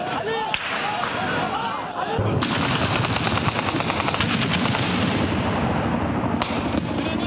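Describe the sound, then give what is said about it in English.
Gunfire erupts during a military coup attempt in Ankara: a few voices at first, then dense, sustained rapid bursts of loud, sharp shots that continue without pause to the end. “At the time, fighter jets were seen flying over the capital Ankara and Parliament came under fire.”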